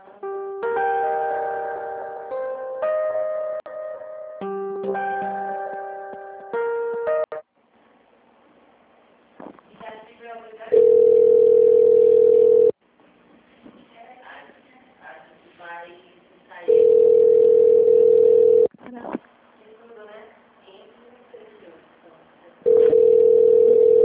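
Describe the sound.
Telephone tones sound while a call is transferred to an extension: a short electronic melody opens, then three steady ringing tones of about two seconds each, with faint voices in the gaps.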